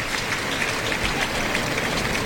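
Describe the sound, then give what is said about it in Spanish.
A bullring crowd gives an ovation during a bullfight, a dense, continuous hiss of many hands clapping that stays steady and moderately loud throughout. “está llevando Rubén Sánchez una buena ovación del público.”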